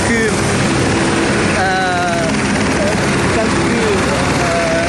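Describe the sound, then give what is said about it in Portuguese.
A helicopter's engine and rotor drone steadily and loudly at a devastated site where other helicopters keep arriving, with a voice talking over the continuous noise. “Neste local, sempre está a vir ali outro helicóptero, por isso é que a gente vai se movimentando,”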